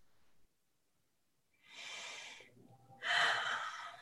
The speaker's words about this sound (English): I'm taking a deep breath because I can feel some of that coming up still to this day